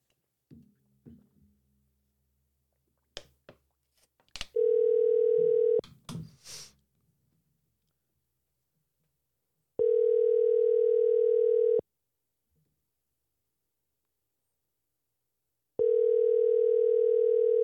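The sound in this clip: Telephone line tone while a call is placed: three long, steady electronic tones of about two seconds each, evenly spaced with quiet gaps, after a few clicks and brief talk from people at the start.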